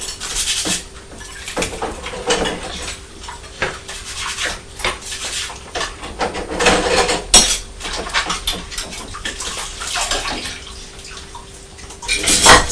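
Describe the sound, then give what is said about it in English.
Pots and dishes are washed in a kitchen sink: many irregular clinks, knocks and clatters of crockery and cutlery mix with splashing water, moderately loud throughout. “Mummy's washing the pots.”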